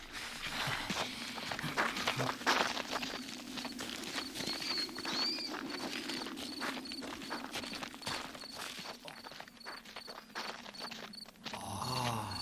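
Footsteps of people walking, with many steady, soft steps that continue through the whole stretch over a constant background hiss.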